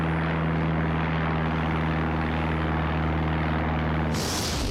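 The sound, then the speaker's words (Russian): An airplane takes off at an airport with a loud, continuous engine roar over a low droning hum. The sound stays steady throughout, then its tone shifts abruptly near the end. “Аэропорт. Самолет взлетел.”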